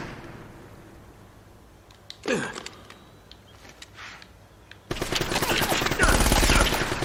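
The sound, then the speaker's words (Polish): Bursts of rapid gunfire in a video game break in loudly about two-thirds of the way through. They form a dense, sustained barrage that follows quieter ambience and a single sharp thump earlier on. “O, schowaj się, człowieku. To nie jest dobry pomysł, słuchajcie, czekajcie. On takimi seriami strzela.”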